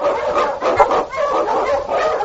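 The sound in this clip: Husky sled dogs in the snowy Yukon bark and yelp together in a dense, continuous chorus of overlapping calls. The sound is muffled, with a narrow, band-limited tone.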